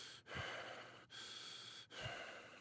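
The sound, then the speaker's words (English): Heavy, out-of-breath breathing from someone walking the streets of New York City: three faint, rasping breaths in even rhythm, each separated by a brief pause. “I'm like, am I really that out of breath?”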